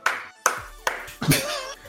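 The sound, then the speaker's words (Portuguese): A slow clap: sharp hand claps land one at a time at an even, deliberate pace. Each crack is loud and is followed by a short decay before the next. “esse, esse, foi meu slow clap pra ti aí.”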